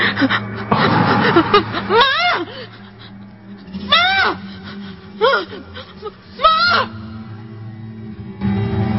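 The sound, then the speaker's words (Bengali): A girl screaming in fear in a dark room during a power cut: a breathy gasp, then four wavering, high, quavering cries separated by short pauses. “শ্রেয়ার চিৎকার শুনে তার মা দ্রুত রুমে এলেন।”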